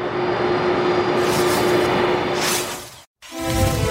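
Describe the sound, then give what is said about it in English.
Jet engine roar as Air Force One lands at El Paso, Texas, a loud steady rushing noise with a faint whine, broken by a sudden short silence near the end before a lower tonal engine hum returns. “President Trump, now landing in El Paso, Texas. You see Air Force One there on the tarmac.”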